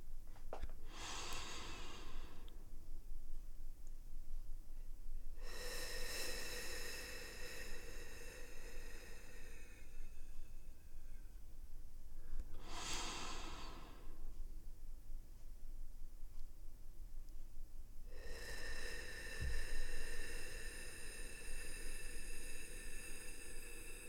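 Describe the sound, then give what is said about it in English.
Slow, deep breathing in and out: four long, airy breaths that alternate between shorter and longer ones, separated by quiet pauses, soft and steady with no talk. “Just breathe with me. Breathe in and out.”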